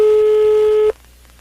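A telephone line tone as a prank call is placed to a bar: one steady, loud, pitched beep that holds for almost a second and then cuts off into near silence.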